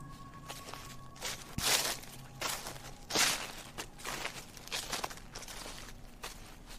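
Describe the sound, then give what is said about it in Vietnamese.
Footsteps crunch over fallen leaves, with several soft, uneven steps rustling and crackling. The louder crunches rise out of faint, steady background noise. “Mỗi một bước chân dẫm lên đám lá cây làm cho tôi giận cả người. Là tiếng bước chân của tôi hay là tiếng bước chân của một ai khác ngay đằng sau?”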